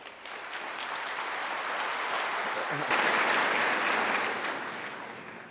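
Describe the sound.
An audience gives warm, sustained applause to welcome a speaker at a faith-based talk. The clapping is steady, swells near the middle, then tapers off toward the end.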